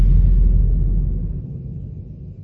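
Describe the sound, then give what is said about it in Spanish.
A car engine that won't start makes a strange noise: a steady, deep rumble with no clear cranking rhythm. It fades slightly over its few seconds and plays alone, with no voices. “estoy en Betania y el carro no arranca. El motor hace un sonido raro, algo como que...”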